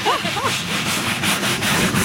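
Abrasive scrubbing as a boat is cleaned with soap and water before the season. A rapid series of rough rubbing strokes runs steadily and loudly throughout.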